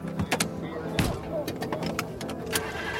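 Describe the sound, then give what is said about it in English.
Car driving around Los Angeles: a low, steady hum with scattered clicks, knocks and rattles, and voices talking over it. “I'm driving around LA”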